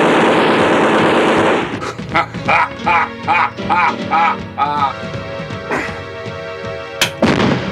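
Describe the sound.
A hand grenade blast in a German wartime radio drama, a loud, sustained roaring burst of noise, then a man's voice speaking, with another sharp bang near the end.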